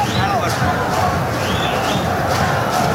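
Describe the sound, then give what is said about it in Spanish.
Paraguay football fans cheer and chant for their team at a match against France, a dense, steady roar of crowd voices running throughout beneath a commentator's speech. “No hacen daño defensivamente a Paraguay. Que sigue recibiendo el aliento de su público,”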